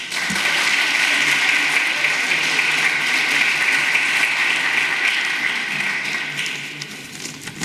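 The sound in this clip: An audience gives loud, dense applause welcoming a state senator to speak, a continuous wash of clapping that holds steady and eases slightly near the end.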